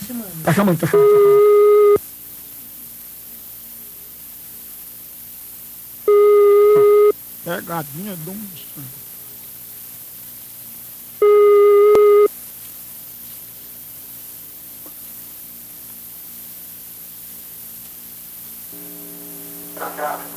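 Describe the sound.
Telephone ringing tones on an outgoing prank call, three long, steady electronic tones spaced evenly with quiet gaps between them, and a low tone starting again near the end.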